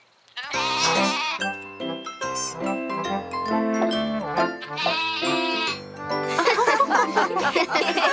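A little goat bleats in a run of loud, wavering, strongly tonal cries that shift in pitch from one call to the next and continue with hardly a break until the end.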